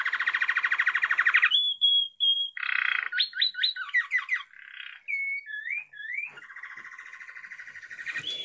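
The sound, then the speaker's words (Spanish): A saffron finch sings a varied, continuous song of buzzy trills, rapidly repeated notes and slurred whistles that shift in pitch, loud and alone with no voices. “El jilguero dorado que estamos escuchando es una de las aves más conocidas de la Argentina”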